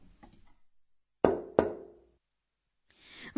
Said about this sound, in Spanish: Suena como alguien llamando a la puerta.